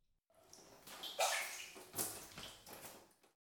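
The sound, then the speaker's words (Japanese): Feet are lifted out of a hot-water foot bath with faint sloshing and dripping: a few soft splashes and quiet trickles rise and fade, all at low volume. “足湯もそろそろおしまいですね。お湯から足を上げていただいて。”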